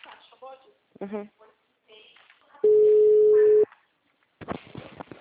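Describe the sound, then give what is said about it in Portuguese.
A telephone ringing tone on a call: one steady, mid-pitched beep lasting about a second, with voices talking before and after it. “Agora chamou.”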